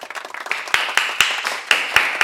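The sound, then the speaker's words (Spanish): Scattered applause at the close of a debate: a few sharp, separate claps rather than a dense ovation, loud and irregular with short pauses between them. “Y aplausos.”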